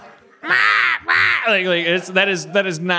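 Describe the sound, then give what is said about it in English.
Crows cawing in a city backyard: two loud, harsh, rasping caws, followed by further wavering, throaty calls. “You live in the city and you got crows in your backyard, they can be super fucking annoying.”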